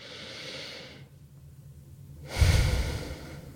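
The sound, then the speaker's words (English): A slow deep breath taken during a calming guided exercise, made of two long airy breath sounds separated by a quiet pause, the second fuller and louder than the first. No talking. “So take a moment now, pause. Take a deep breath.”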